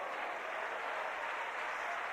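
Congregation applauding during a church service, an even, faint wash of clapping that stays level for about two seconds with no clear individual claps.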